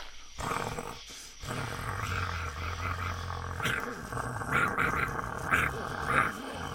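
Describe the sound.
A werewolf growling, a rough, throaty low growl with roar-like surges that swell and subside over several seconds.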